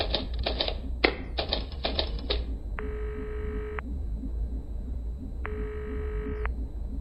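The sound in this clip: A telephone is dialed on an emergency red line: a quick run of sharp clicks, then two long, steady ringback tones separated by a pause, all over a low rumbling hum.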